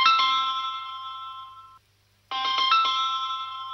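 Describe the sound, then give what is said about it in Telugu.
Phone ringtone with a bright, multi-tone electronic ring in two bursts. A short silent pause separates them, and no one talks. “బా, ఈ ఫోన్లు ఒకటి మళ్ళీ. ఈ company వాళ్ళకి ఇదేం పనో ఏంటో.”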